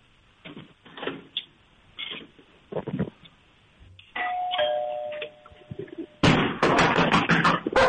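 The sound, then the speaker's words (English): A puppy at home, coaxed into reacting, barks several times, loud and bunched together, right after a doorbell chime rings. Softer rustling and thumps come earlier. “You gave us one bark. There we go. One and a half, two.”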